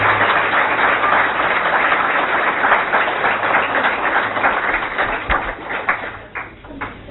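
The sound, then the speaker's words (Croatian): Loud applause from an audience at an award ceremony, a dense roar of many hands clapping that holds steady, then thins in the last seconds into scattered individual claps. “Slobodno još jednom aplauz.”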